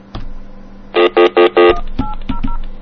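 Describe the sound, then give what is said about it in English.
A telephone is dialed by pressing its keypad slowly, producing four loud, evenly spaced touch-tone beeps. Sharp button clicks come between the beeps, with a few fainter tones after them. “God, could I dial any slower? I'm too close.”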